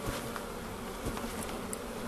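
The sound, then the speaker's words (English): Honey bees buzz around an open hive in a garden near Bristol, where they are fed sugar syrup: a dense, steady, fairly faint drone of many wings, continuous with no talk. “All these bees are very hungry and they want some of the sugar.”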